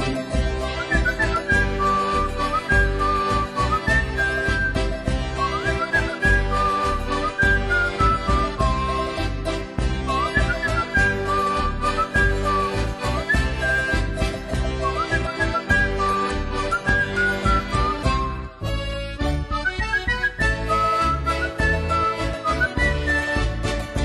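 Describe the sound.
Whistling carries a high melodic line over a lively song with steady rhythmic backing, staying loud and continuous throughout with only a brief dip near the end.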